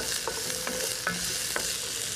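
Onions fry in a cast iron pan with a dense, steady sizzle. A few light scrapes from stirring cut through the hiss, and no one speaks.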